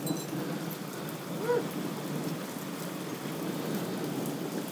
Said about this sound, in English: It's fairly rumbling around out there.